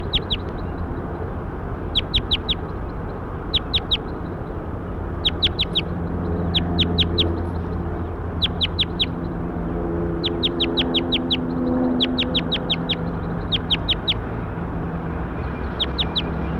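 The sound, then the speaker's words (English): Bird calls ring out as high, sharp chirps in short repeated clusters, recurring many times over a steady low background rumble. “So recording bird 7-8.”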